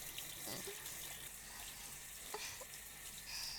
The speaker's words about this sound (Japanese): 泡を洗い流して